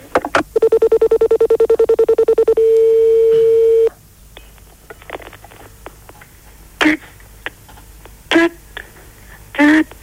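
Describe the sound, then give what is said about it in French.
Telephone tones as a call goes through to an answering machine: a rapid run of pulsed tones, then one long steady beep, followed by a few sharp clicks and short bursts. “Je dois être sur le répondeur, là. Bon, ben, je vais laisser un message.”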